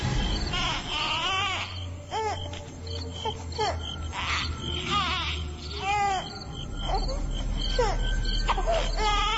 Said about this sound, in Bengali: এক ঘন্টা পর বাসায় ঢুকেই সে পিচ্ছি বাচ্চার কান্নার আওয়াজ শুনল।